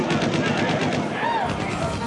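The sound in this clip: Gunfire crackles in a dense, unbroken barrage of repeated shots aimed at fish, with talk mixed in under the steady noise.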